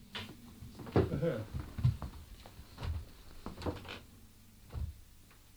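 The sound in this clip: A door handle is pushed down and a door rattles in its frame. Several irregular knocks and clatters come in uneven bursts, some heavier thuds among lighter rattles, at a moderate level.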